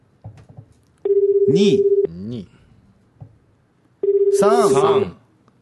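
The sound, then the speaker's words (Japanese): Telephone tones from a call being placed: two long, steady electronic tones, each about a second, with voices talking between them and over them. “じゃあかけてみます”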